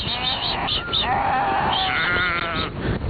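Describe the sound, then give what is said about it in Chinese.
Sheep bleating as a flock is herded back into its pen at an evening summer pasture at the foot of the Tianshan Mountains; overlapping, wavering bleats sound loudly and continuously throughout. “又要赶到他们家位于天山脚下的夏牧场，把羊赶回羊圈。”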